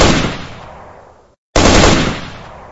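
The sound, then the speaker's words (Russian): Two bursts of automatic rifle fire, shot blindly across a station yard: each a dense, loud crackle of rapid shots that fades over about a second, split by a brief silence. “Я вскинул автомат и, не видя цели, дал 2 короткие очереди по двору станции.”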